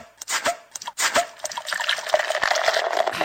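A drink poured into a glass at a happy hour bar: a few uneven splashes open the pour, which then settles into a steady, bubbling fill of liquid.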